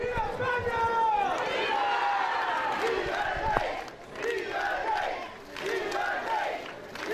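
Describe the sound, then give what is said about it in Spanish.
Dozens of monarchists loudly chant and cheer to welcome former King Juan Carlos I at the Sanxenxo marina. The shouted calls are rhythmic and sustained, with a brief dip partway through before the voices surge again. “Esta mañana, docenas de monárquicos recibían de esta manera al rey emérito.”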